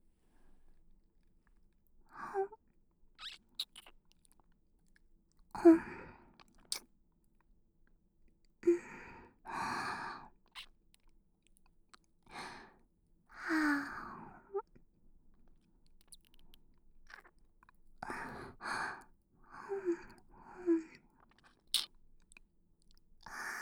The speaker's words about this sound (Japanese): それでは、お待ちかねの血を吸わせてもらうとしよう。今日はこちらの耳たぶから。いただきます。